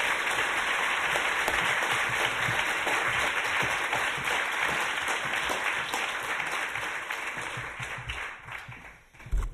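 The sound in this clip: Sustained applause from an audience welcoming a speaker at an LSE lecture: dense, even clapping for about nine seconds that thins out toward the end.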